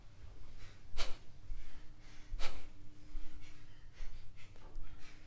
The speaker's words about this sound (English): Exact same thing, getting ready for the fire breath. by your breath, start.